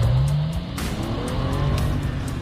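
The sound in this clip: A car speeds and skids during a chase, with a loud, continuous engine roar and squealing tyres throughout. A tonal whine rises in pitch at the start.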